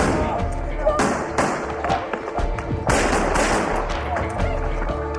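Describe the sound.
Gunfire from a guard's weapon as he returns fire: a few sharp, loud bangs burst out over a dense, noisy background.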